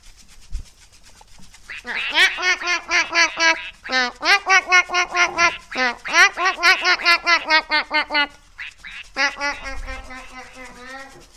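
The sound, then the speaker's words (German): A small flock of ducks quacks wildly in rapid, rhythmic runs of loud, nasal calls, grouped into four excited bursts separated by short pauses. “Der ganze kleine Entenschwarm schnatterte wild und aufgeregt drauf los.”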